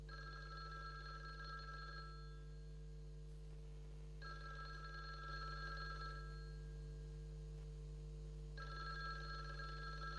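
A telephone rings in three long bursts of bright, trilling ring, separated by pauses of about two seconds. The ringing is faint over a steady low hum.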